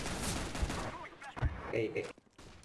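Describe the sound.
Gunfire in a video game: a few sharp, fairly faint bursts of shots with short gaps between them.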